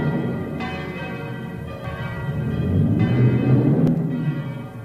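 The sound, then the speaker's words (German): Church bells ring a storm-warning peal in a radio play, a few resonant strikes with long ringing tones that overlap and sustain at a moderate level. “in Schellenberg hoben die Glocken das Wetterläuten an.”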